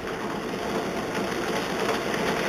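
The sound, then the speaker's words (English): A bingo machine whirs as it starts up, giving a steady, even mechanical hum with a faint high whine and no clear change over its short run. “So, all that said and done means it's time to fire up the bingo machine.”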